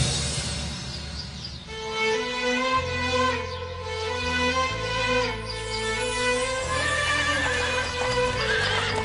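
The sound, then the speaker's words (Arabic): Horses approaching across the Sinai desert, with clip-clopping hooves and repeated whinnies and neighs that carry on at a fairly steady loudness throughout, without any talk. “صوت خيول تقترب، أسرعي يا مريم.”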